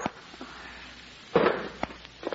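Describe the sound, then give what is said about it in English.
A few faint, sharp gunshot pops ring out in a tense confrontation, with the strongest crack midway followed by quicker, smaller reports over a quiet background. “see what the sound of those shots brought you?”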